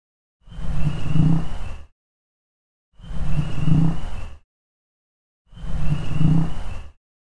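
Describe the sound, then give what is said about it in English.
A bullfrog calls three times in evenly spaced, identical bursts, each about a second and a half long: a deep, buzzy, resonant drone with strong low tones and a rough texture, separated by silence. “So that part ends with a bullfrog pretty prominently, and I'll just go ahead and play the bullfrog three times.”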